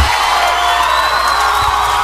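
Brief crowd cheering mixed with whoops and some applause, loud and steady for about two seconds.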